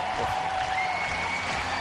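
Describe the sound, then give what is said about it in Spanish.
An ovation for Roger Federer at a tennis event: sustained, even crowd applause that keeps up a constant broad roar from start to finish, with a faint steady tone running beneath it. “ovación para Roger Federer.”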